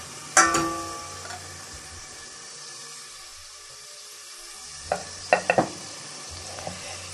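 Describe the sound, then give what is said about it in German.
Bacon frying in a pan, a faint sizzle with a few short stirring clatters, one near the start and a quick cluster toward the end, separated by a long quiet stretch. “Lass den ein bisschen angehen, den Speck.”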